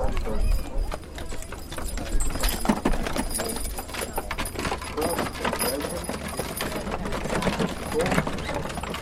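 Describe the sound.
Horses walking, their hooves clip-clopping in many quick, uneven knocks that carry on steadily throughout, under murmured talk from people nearby.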